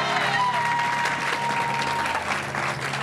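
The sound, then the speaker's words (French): A church audience claps in sustained, dense applause that continues at an even level from start to finish, with a faint held tone beneath it. “On acclame Jésus, acclame le Seigneur.”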